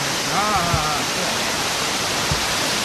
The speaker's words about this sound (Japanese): すごいなこの水量。 おお、滝だ。